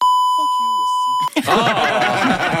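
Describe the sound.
A steady, high-pitched censor bleep covers French speech for just over a second, then cuts out and the voice continues unmasked in a political news commentary.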